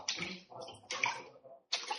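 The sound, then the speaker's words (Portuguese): Water rushes out of a flooded bathroom into the room beyond, faint gushing bursts of flow broken by short pauses. “Tá vendo? A água tá saindo. Lá na frente.”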